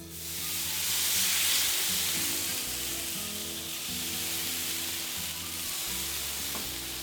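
Monjayaki batter with shredded daikon, topped with sea bream sashimi, sizzles on a hot griddle. The sizzle is a steady, moderately loud hiss that swells early and then holds evenly.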